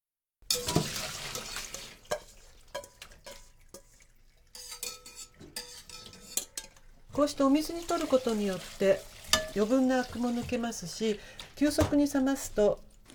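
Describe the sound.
A utensil stirs spinach in a pot of boiling water, making scattered metallic clinks and scrapes against the pot, with bubbling underneath; a voice talks over the second half.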